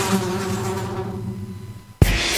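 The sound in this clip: Flies buzzing in a dense swarm, a thick, steady insect drone that slowly thins out, then gives way abruptly to a sudden loud burst of sound at the end.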